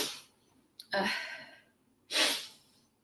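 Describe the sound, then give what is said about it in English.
Two sneezes from a pregnant woman having sneezing fits, each a sharp, breathy burst that fades quickly. A short intake of breath comes just before the first, with a quiet pause between the two. “I've been getting the most intense pregnancy sneezing fits ever. Like, I'll be totally fine, and then the next minute I'm just like, achoo, achoo, achoo.”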